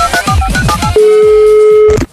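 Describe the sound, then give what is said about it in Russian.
An outgoing telephone call rings: a burst of short beeps and sweeping tones gives way to one long, flat, mid-pitched ringing tone lasting about a second, then cuts off. “А мы сейчас попробуем позвонить”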